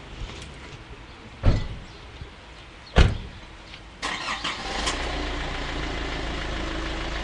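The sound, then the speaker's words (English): Car engine starting up after two heavy thuds like doors slamming, then settling into a steady low running hum that continues to the end. “So Tansy and Micah have begun the long drive back to Whakatane.”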